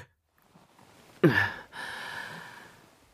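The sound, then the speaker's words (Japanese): A yawn from a tired person near their limit: a sudden breathy, voiced onset, then a long, drawn-out exhale that slowly fades over about two seconds. “ん？あ、あくびしてる。”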